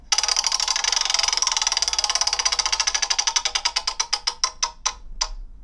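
Prize wheel spinning: a rapid stream of ratcheting clicks that gradually slows, spreading into separate ticks before it comes to a stop.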